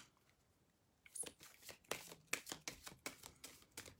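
Oracle cards are shuffled by hand in a rapid, soft run of papery flicks and riffles that starts after a quiet moment and carries on to the end. The sound is faint, with no voices.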